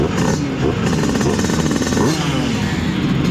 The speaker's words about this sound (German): warum sind unsere Simson S51 eigentlich so beliebt in Südharz und Osten? Es ist ein Sound, der im Südharz Erinnerungen weckt. Ein helles, rhythmisches,